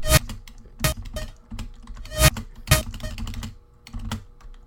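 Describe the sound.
Computer keyboard keys pressed to delete: a quick string of sharp plastic clicks in an irregular rhythm, a few harder clacks standing out among lighter taps, with no voices.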